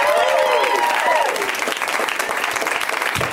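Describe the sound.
A comedy club audience applauds as a comedian takes the stage: loud, dense clapping that runs the whole time, with a few cheering voices rising above it early on.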